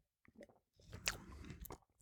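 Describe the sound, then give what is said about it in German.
Someone takes a sip of a spiced liqueur, heard as soft, wet mouth and slurping sounds. A short burst comes first, followed by a longer one, all faint and without talk. “Und ja, also jetzt nehme ich mal einen Schluck.”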